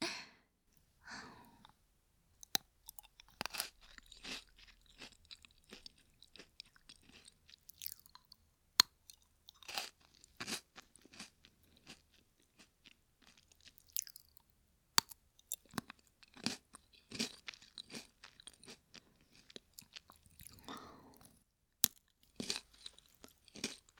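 Crunchy food is chewed in many quiet, irregular crisp bites and crunches, with short pauses between bursts and no talk.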